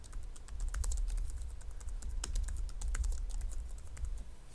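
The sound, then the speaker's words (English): Typing a password on a computer keyboard during server setup: a fast, continuous stream of crisp keystroke clicks over a low steady hum. “Next, type in the restore password.”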